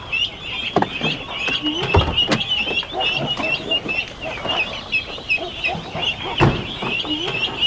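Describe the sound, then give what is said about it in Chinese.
Many ducklings peep together in a continuous high-pitched chorus of overlapping chirps, broken by occasional louder thumps and scuffles. “你买了这么多小鸭子没？”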